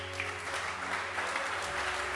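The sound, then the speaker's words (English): A church audience claps their hands in a dense, steady burst of applause that stays even in loudness throughout, with a low sustained hum beneath. “Clap your hands for yourself.”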